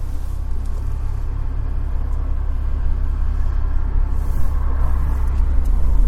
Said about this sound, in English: Some cars coming.